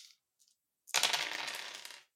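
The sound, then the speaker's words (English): Several tabletop game dice, including d8s and d6s, rolled together in a dense rattling clatter that lasts just over a second, after a couple of faint ticks. “So many dice.”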